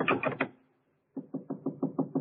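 Knocking at a door in a radio drama: a quick run of sharp raps, a short pause, then a longer, louder series of steady, evenly spaced knocks.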